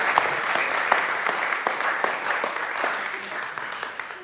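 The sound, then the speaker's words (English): Applause greets an author who is welcomed on stage, a few seconds of sharp, scattered claps over a crowd wash, with voices talking through it. “Let's give her a hand.”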